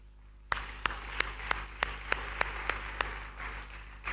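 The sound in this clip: A worship service audience claps rhythmically, giving faint, sharp, evenly spaced claps at a steady beat over a low hum.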